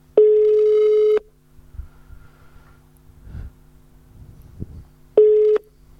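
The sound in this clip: Ringback tone of an outgoing telephone call: two steady mid-pitched beeps, the first lasting about a second and the second cut short, separated by a long gap filled only with faint background rustle.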